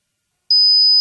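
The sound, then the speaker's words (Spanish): A high-pitched electronic ringing beep imitates tinnitus in an advertisement. A thin, steady, piercing tone begins after half a second of silence and shifts to a second tone just at the end. “Es molesto, ¿verdad? ¿Te imaginas oírlo cada noche? Sonofin te puede ayudar porque Sonofin con ginkgo biloba y melatonina reduce los pitidos”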